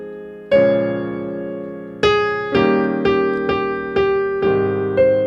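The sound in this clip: A solo piano plays the opening of a jazz standard, with melody in the right hand over left-hand chords. Eight ringing attacks form a slow phrase, each note sustaining and fading before the next.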